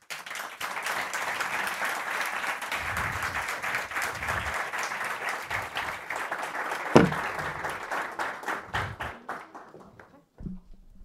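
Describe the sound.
Audience applause for a museum director at the opening of Copenhagen's city museum: dense, sustained clapping that gradually thins and fades near the end, closing with a soft low thump.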